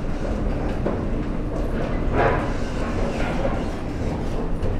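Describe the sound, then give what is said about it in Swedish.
Train station platform ambience with a steady, fairly loud low rumble of rail traffic running throughout, the broad noise shifting only slightly over the few seconds. “Och nu kommer vi ut på perrongen. Hur hanterar hon perrongen då?”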